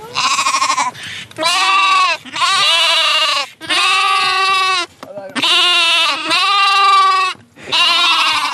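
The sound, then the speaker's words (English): Sheep bleat on a rural Australian property: a long series of loud, drawn-out, harmonic bleats, each running into the next with brief gaps between, and no talk. “Thanks to the sheep as well.”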